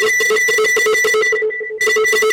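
A telephone rings during a call with a loud, trilling electronic ring of rapid pulses at a steady pitch. It stops briefly and then starts again.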